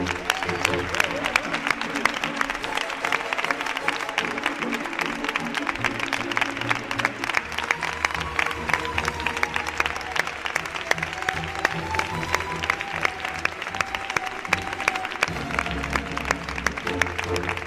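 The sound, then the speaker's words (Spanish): Audience applause at the end of a live stage performance of a radio drama adaptation of a psychological thriller, with continuous clapping across the whole stretch and a sustained tonal sound faintly underneath. “otro fuerte aplauso”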